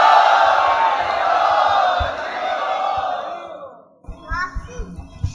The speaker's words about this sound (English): Let's welcome him to NVCC by loudly chanting Hari Bol!